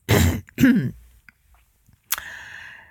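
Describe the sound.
A voice acts out a throat clearing in a narrated story: two gruff, raspy bursts close together, then a pause with faint clicks before a softer breathy rasp.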